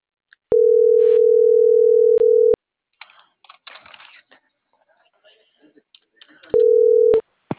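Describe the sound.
Telephone dial tone heard while dialing a call: a loud, steady hum lasting about two seconds with a brief break, then a stretch of light clicks like typing, then the tone returns briefly.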